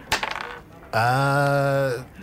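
Dice rattle and clatter briefly across a table in a quick burst of small clicks, followed by a long, sustained voiced tone held steadily before fading.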